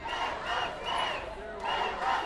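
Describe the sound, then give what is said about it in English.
A protest crowd of strip club workers and supporters marching through the French Quarter chants loudly in rhythmic swells, with about three repeated surges of massed voices. “Hundreds of strip club workers and their supporters marched through the French Quarter last night. They were protesting police raids on clubs that have left them out of work.”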